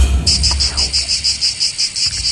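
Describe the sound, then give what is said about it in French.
Cicadas chirp near the seaside in southern France in a loud, rapid, steady series of high buzzing pulses that keeps a regular rhythm throughout. “Bah oui, c'est les cigales. Bah oui, c'est les cigales, bien sûr.”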